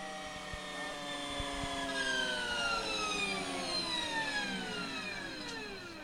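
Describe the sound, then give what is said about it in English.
A high, electric whine comes from the revving of Harley-Davidson's first electric motorcycle, a prototype at a zero-emission vehicle showcase. Its layered harmonic tones slide in pitch over a steady, continuous level. “That sound is the revving of Harley-Davidson's first electric motorcycle”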